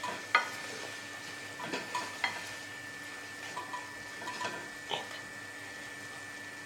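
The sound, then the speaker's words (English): A vegetable dish cooks in a pan with a soft, faint sizzle as it is stirred, punctuated by a few light clinks of a utensil against the pan. “now it's being cooked”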